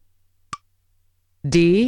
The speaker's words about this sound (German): Ich drücke Start-Stopp lange.